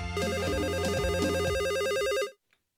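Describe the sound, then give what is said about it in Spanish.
A telephone rings for an incoming call with a loud, continuous warbling electronic trill over a lower buzzing tone. It lasts a couple of seconds, then cuts off abruptly into silence. “En Idaho, tenemos llamada.”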